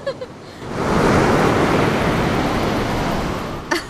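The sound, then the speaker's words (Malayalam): A big wave breaking on a beach in Goa: a broad roaring surge of water that swells in after a brief quiet, holds as a loud hissing wash for about three seconds, then recedes. “നീ നോക്കിയേ, ഒരു ഉഗ്രൻ തിര അടിച്ചു കയറി വരുന്നുണ്ട്.”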